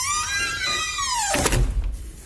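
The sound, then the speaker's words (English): A Bluetooth smart door lock locks with a motorized whir that slides downward in pitch, then ends in a solid mechanical thunk and a short clatter. “Hey, lock the door. You know, people might think, oh, gosh, having a Bluetooth lock, that's insecure”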